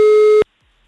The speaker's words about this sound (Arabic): رن اربع رنات والرابعة الأخيرة رح أعطي فرصة لحدا تاني.